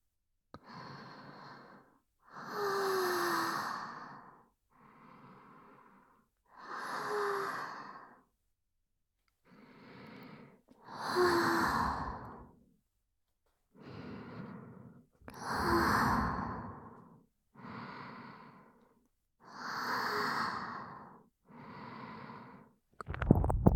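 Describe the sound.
Slow, deep breathing, long breathy inhales and sighing exhales alternating steadily, each swelling and fading in loudness with short silent pauses between breaths.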